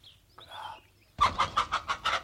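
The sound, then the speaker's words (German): A hen clucks in a quick, evenly spaced run of sharp, loud clucks, after a few fainter, softer sounds at the start. “Verdammte Henne. Du wirst nicht mehr singen.”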